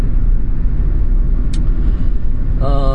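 A car driving to work on the road gives a loud, steady low rumble of engine and road noise that carries on without a break. A brief high blip sounds partway through.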